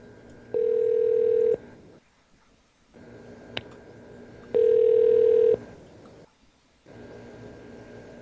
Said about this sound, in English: How many times can this fucking phone ring? A million, apparently.